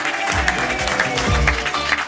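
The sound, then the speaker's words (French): An audience applauds to welcome a guest actor, with steady clapping from many hands at moderate volume and a few sharper accents standing out in the texture. “Applaudissez François-Xavier de Maison.”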